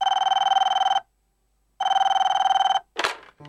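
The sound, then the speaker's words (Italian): Old-style telephone bell ringing in two long, loud, evenly trilling bursts separated by a silent gap, followed by a short noisy clatter and a faint tone. “Una telefonata straordinaria, indimenticabile.”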